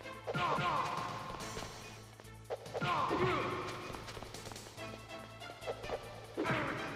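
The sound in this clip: Punching impacts from the Metal Gear Solid video game: a few heavy smacking, thudding hits that land in short bursts over a steady low game hum, with faint voices now and then.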